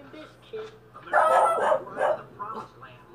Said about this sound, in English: Don't bark.